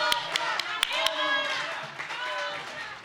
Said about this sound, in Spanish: Aplauso.